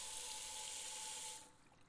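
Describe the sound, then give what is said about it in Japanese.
Hot water runs from a tap at a home shampoo basin in a steady, bright hiss, then cuts off after about a second and a half, leaving only faint room noise. “お湯の温度このぐらいかな。”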